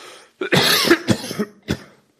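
Coughing from a tickle in the throat: a short fit of several harsh, fairly loud coughs in quick succession, with a brief gap before a final cough, and no talking.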